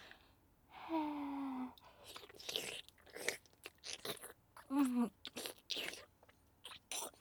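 Quiet crunchy chewing and biting while someone taste-tests a rich food. Irregular bursts of crisp crunches are broken by two short hummed vocal sounds.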